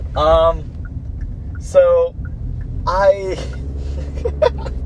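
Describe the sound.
A car being driven, heard as a continuous low road and engine rumble beneath someone talking, with the voice carrying over the steady drone throughout.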